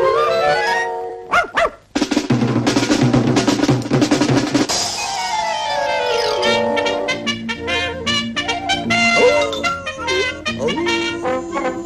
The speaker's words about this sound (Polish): do naszego studia wkroczy teraz bardzo agresywny, bardzo niebezpieczny pies.